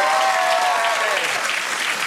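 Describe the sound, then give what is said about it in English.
An audience welcomes eco warrior Costa Georgiadis with loud, dense applause, a continuous wash of clapping hands that holds steady from start to finish. “That eco warrior's about to walk out here. Give it up for Costa Georgiadis.”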